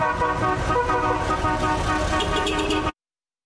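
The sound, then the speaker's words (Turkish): Horns and engines of classic cars at a city gathering of eighteen vintage vehicles: loud, continuous overlapping honks and toots over a rumbling motor bed, cutting off abruptly. “Klasiklerin korna ve motor sesleri şehre uzun süre silinmeyecek çok özel ve renkli bir hatıra”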